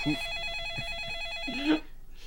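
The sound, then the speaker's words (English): A telephone rings in a bedroom with the lights off, giving a steady electronic warbling trill that holds for nearly two seconds and then cuts off, followed by a brief quiet tail. “So, for the listeners, there's a phone currently ringing in the Numa guy's bedroom.”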